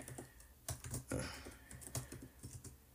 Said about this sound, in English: We're going to have to get out the laptop for this one. The laptop is about to become a mainstay on this podcast. We're going to have to do all types of Google searches and crazy stuff.